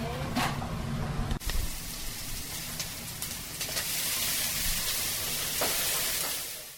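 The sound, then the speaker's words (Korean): Food sizzles and fries in a Japanese ramen shop kitchen, a steady bright hiss of hot oil with a few short clatters and stirring noises running underneath. “일본식 라면 가게인 이야기를 담은 라멘의 주방에서 능숙한 솜씨로 주문받은 음식을 만들어냈습니다.”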